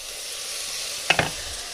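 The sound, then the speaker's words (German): Onions and bell peppers frying in a pan give a steady, soft sizzle, broken near the end by two brief metallic clinks from a utensil. “So, die Zwiebeln sind angegangen, jetzt tue ich Paprika rein. Die lasse ich auch angehen.”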